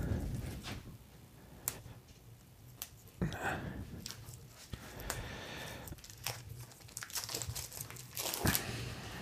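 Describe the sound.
Plastic wrapping crinkled off a plain salad cucumber, heard as many faint, irregular crackles and rustles with occasional sharper snaps, and no talk over them.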